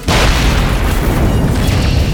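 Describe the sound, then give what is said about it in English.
An energy bolt strikes a jeep and sets off a loud explosion: a sudden blast that holds as a thick, roaring rumble for about two seconds without fading. “One of her random force bolts struck a Jeep.”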